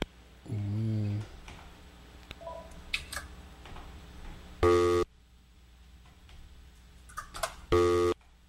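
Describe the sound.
A telephone busy tone after a dropped call on a call-in line sounds as a few separated tonal bursts, ending in two short, loud harmonic beeps about three seconds apart, with no talk.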